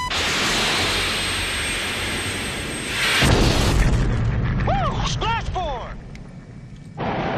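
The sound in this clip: Missile launched from a fighter jet in a movie action scene: a steady jet roar, then a loud whooshing blast midway, followed by a series of curved, warbling electronic tones before the roar returns.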